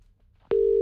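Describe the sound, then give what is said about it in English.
A telephone tone heard while calling someone: after a quiet moment a steady, pure, mid-low beep starts abruptly and holds unbroken to the end. “Hang on, I've just got to ring somebody. Hold on.”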